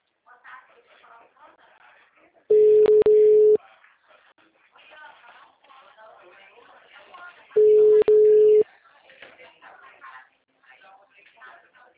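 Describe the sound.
Busy tone after a dropped phone call: two loud, steady mid-pitched tone bursts, each about a second long and several seconds apart, rising above faint background talk.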